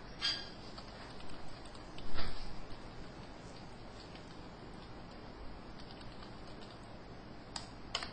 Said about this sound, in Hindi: मिसाल के तौर पर मैं इस वक्त एक पहला टैक्स टाइप करता हूं